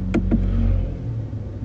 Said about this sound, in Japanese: これエンジンですか。 これがエンジン、はい、表示が消えてスポーツモード、うん、さっき音が変わったの聞いたじゃん。